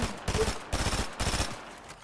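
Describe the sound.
Gunfire in a ranked duo shooter video game match, with three dense, noisy bursts of shots following each other closely and then fading out, with no talk.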